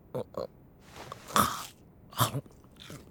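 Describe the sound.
Crisp bites into tonkatsu, a breaded pork cutlet: a few short crunchy bursts spaced unevenly over a few seconds, with quiet gaps between them.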